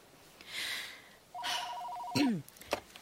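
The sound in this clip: A telephone rings once in a short electronic burst of a steady warbling tone, fairly faint against a quiet background, followed by a brief sweeping tone.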